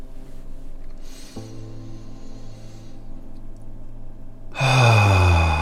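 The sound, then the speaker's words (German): Slow, relaxed deep breathing during a guided relaxation exercise, with soft airy breath noise that ends in a louder exhale carrying a voiced tone that falls in pitch. “einfach mal deine Augen zu schließen und ganz frei zu atmen, ganz entspannt.”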